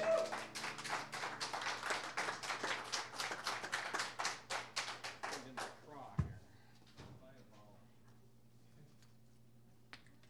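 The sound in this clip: An audience applauds to welcome a contestant: a dense burst of clapping with a pulsing rhythm that fades out after about six seconds, leaving only a few quieter sounds.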